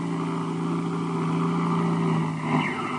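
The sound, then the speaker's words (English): An airplane motor over a canyon, its switch just cut, gives a steady, low, droning hum with strong tonal overtones and a slight surge near the end, heard alone without voices. “the motor's come down. Sure I did. I cut the switch.”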